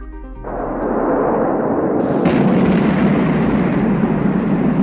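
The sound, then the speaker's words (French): Heavy, continuous roar tied to World War II V2 long-range ballistic missiles. It starts abruptly after a brief quiet moment and stays loud and steady, with no separate blasts. “Hitler donne l'ordre de lancer ses tout nouveaux missiles balistiques à longue portée sur l'Europe, les fameux missiles V2.”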